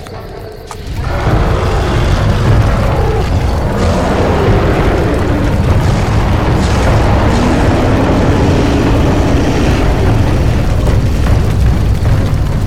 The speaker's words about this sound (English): The fire leapt high to the heavens and the countryside was ablaze.